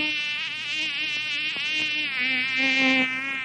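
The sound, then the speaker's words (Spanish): A fly buzzes steadily and alone, a raspy, wavering drone with a slightly shifting pitch that grows a little louder toward the end. “¿Qué fue eso? ¡Es una mosca!”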